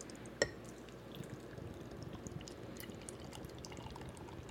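Pale ale brewed with added lactose sugar is poured into a glass, giving a faint, steady liquid rush and fizz with a small clink near the start and no talk.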